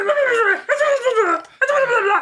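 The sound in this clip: A person imitating a dog gives three drawn-out, whining yelps. Each has a slightly falling pitch, and short gaps separate them.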